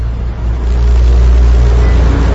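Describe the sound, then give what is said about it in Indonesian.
A car engine runs loudly in a basement car park, a dense, steady low rumble that swells slightly and holds throughout, with no other sounds. “akhirnya aku tiba di mobil dan bergegas menyalakan mesin”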